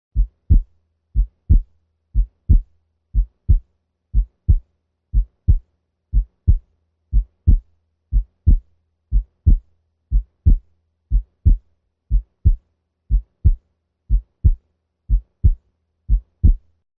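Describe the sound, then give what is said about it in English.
Heart sounds at 60 beats per minute with paradoxical splitting of the second sound, as in left bundle branch block: a slow, steady rhythm of soft low thuds in regular pairs, heard alone. “The S2 split now increases during expiration and decreases with inspiration. This paradoxical splitting, as depicted in Figure 1-13, occurs with left bundle branch block and rarely with aortic stenosis. Listen first at 60 beats per minute.”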